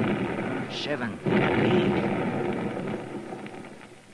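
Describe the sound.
Dynamite blasts bringing down rock in a mine shaft: a heavy rumbling blast swells about a second in, then a broad, sustained roar slowly fades, with a voice over it.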